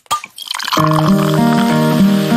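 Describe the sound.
A bottle of Cusqueña beer is opened and poured: a sharp opening snap comes first, then a short fizz, then a steady, full-bodied flow of liquid that continues to the end.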